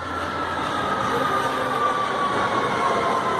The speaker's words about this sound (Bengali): সোমবার সকাল, অরিন্দম কবি নজরুল মেট্রো স্টেশনে দাঁড়িয়ে দূর থেকে দেখতে পাচ্ছে ট্রেন ঢুকছে।